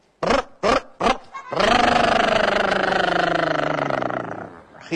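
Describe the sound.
A voice imitates a car engine starting after a push-start, in a car said to run on soybean oil: three short sputtering bursts, then a loud, sustained roaring drone that slowly sinks in pitch and fades.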